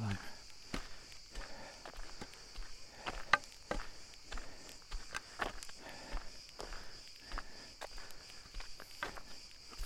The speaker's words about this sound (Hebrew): נחמד ללכת עם הנהר פתוחה, אבל אה, זה פתוח מדי. אני אה, נכנס לי עוד יותר לנעליים.